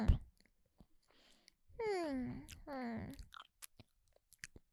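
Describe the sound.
Cream cake being chewed, with soft, wet, irregular clicks and smacks of the mouth. In the middle, a voice hums two drawn-out, contented murmurs between the bites.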